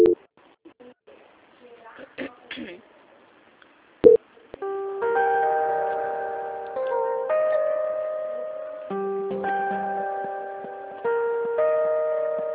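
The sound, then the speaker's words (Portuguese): Call transfer tone on a phone line: after a few faint sounds and a single click, a steady sequence of sustained electronic notes plays, changing pitch every couple of seconds in a simple melodic pattern. “Peço que a senhora aguarde um minuto, que eu vou transferir a ligação para o setor de qualidade para dar continuidade à nossa contratação, tá bom? Transferência.”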